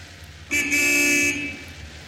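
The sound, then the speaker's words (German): A car horn sounds once in a single loud, steady tone lasting just under a second, rising out of a low background rumble and then dropping back to it. “Hup doch mal.”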